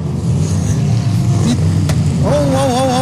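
A car engine revs hard as the driver accelerates during a motor race restart. A dense low rumble carries a wavering higher engine tone that climbs in pitch toward the end.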